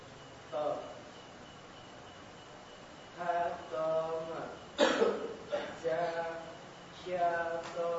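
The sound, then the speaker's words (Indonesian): A brief, harsh cough breaks out during a class practicing Arabic letter pronunciation, heard among several voices repeating sounds. “Lagi batuk.”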